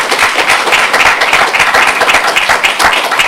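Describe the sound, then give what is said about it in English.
Audience applause at a public event honoring a tax commissioner: dense, continuous clapping from many hands, a steady loud crackle with no pauses. “Give him a round of applause, please”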